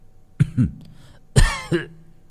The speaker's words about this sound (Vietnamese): Người kia vẫn đang ngồi dưới một tán cây, nghe thấy giọng Nguyệt, mở mắt, ho lên mấy tiếng khủ khủ.